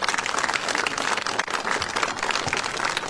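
Applause welcoming Georgia Governor Kemp, a dense, continuous clatter of many hands clapping at steady, moderate loudness for about three seconds.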